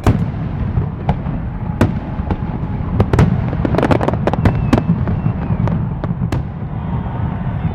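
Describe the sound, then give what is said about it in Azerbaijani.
Fireworks bursting during a US Independence Day celebration, with many sharp pops and crackles firing in quick, irregular succession over a continuous low rumble of distant booms. “Bu atəşfəşanlıq səsləri Birləşmiş Ştatların iyul nəğməsidir ölkənin müstəqillik günü və ya sadəcə 4 iyul kimi tanınan təqvim Amerikanın şərqindən qərbinə, şimalından cənubunadək atəşfəşanlıqlarla qeyd olunur.”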